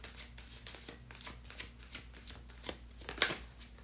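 Tarot cards shuffled for a reading, a fairly quiet, steady riffling and sliding of the deck in rapid repeated strokes, with a sharper snap near the end and no talk.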